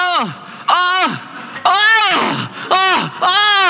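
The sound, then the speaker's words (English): A voice imitates the loud grunting of a runner labouring up stairs during a 100-kilometre race: five drawn-out groans, each sliding downward in pitch, separated by short breaths. “I could hear this guy grunting.”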